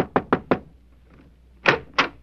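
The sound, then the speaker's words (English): Knocking on a door: three quick raps in a row, a pause, then two more sharp knocks, firm and fairly loud. “Yeah, I'll knock on the door and see if she's ready to leave.”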